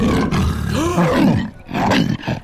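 Leopard roar: deep, rasping roaring calls in a few loud bursts with short breaks between them, the rumbling tone bending up and down within each call.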